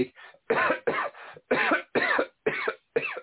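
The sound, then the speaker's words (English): A run of harsh coughs, several rapid bursts in a steady rhythm, loud and alone, with a narrow, phone-like tone. “every week I cough.”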